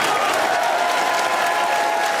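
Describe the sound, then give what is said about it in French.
A standing ovation of continuous, dense applause from a large crowd, steady and loud with no break. “Et standing ovation.”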